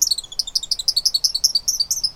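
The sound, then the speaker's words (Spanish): Male song sparrows sing from a wooded thicket along a shore, many rapid high-pitched chirps repeating in a quick, steady rhythm, clear and fairly loud, with no voices. “Y desde un matorral boscoso a lo largo de la orilla, los gorriones cantores machos entonan su coro durante todo el día.”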